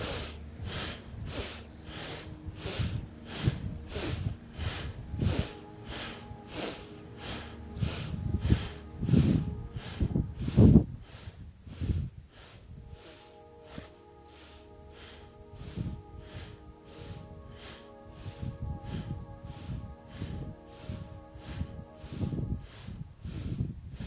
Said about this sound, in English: You're going to inhale to your left and exhale to your right.